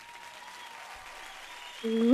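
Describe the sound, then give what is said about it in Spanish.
Faint, steady applause from an audience patters through most of the moment, and a sustained tonal sound enters loudly near the end. “El público aplaude.”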